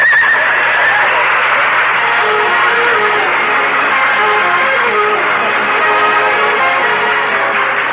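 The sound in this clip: A horse neighs while pulling a sleigh, a loud whinny near the start over a dense, continuous clatter of movement that lasts about eight seconds.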